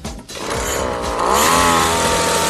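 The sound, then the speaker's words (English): An engine revs hard after its fuel pipe has been replaced, a loud, buzzing drone whose revs climb partway through and then hold high. “Give it some more throttle, it's cutting again.”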